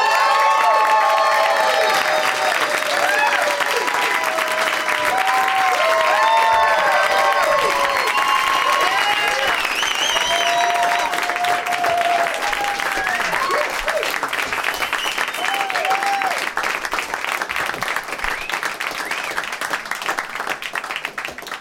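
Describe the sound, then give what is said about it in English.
A studio audience applauds and cheers to welcome three comedy guests. Loud, steady clapping with scattered whoops and shouts goes on throughout and thins slightly at the very end. “Please give a big warm welcome to Rob Corddry, Paul Scheer, and Geoff Tate.”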